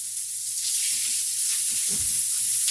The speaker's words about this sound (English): Sometimes cooking gets really loud.